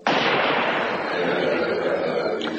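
A gunshot bursts out abruptly, and its loud, broad roar hangs on for more than two seconds before slowly easing.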